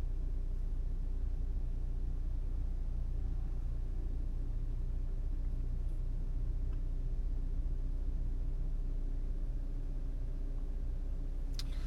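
Steady engine and road rumble from inside a moving car, a low, even drone that holds constant throughout with no talking.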